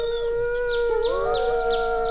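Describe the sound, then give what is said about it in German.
A wolf howls on an island, a long sustained tone with strong overtones that holds steady, then shifts in pitch partway through and carries on unbroken. “Es ist dieses Heulen, das unsere Freunde von der Insel vertreibt. Das ist ein Wolf.”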